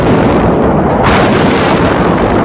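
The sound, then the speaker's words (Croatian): An artillery shell explodes about 30 metres away on Titova Street during the siege of Sarajevo: a sudden loud burst about a second in, rising over a continuous heavy roar and rumble that fills the whole clip. “Evo, sada je pala na granata, kad možda 30 metara od nas.”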